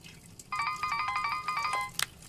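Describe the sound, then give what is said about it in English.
A mobile phone ringing as a man stands at a urinal, playing an electronic ringtone of quick, bright, repeated tonal notes in a steady pattern for over a second before it stops. “A man standing at a urinal when his mobile rings.”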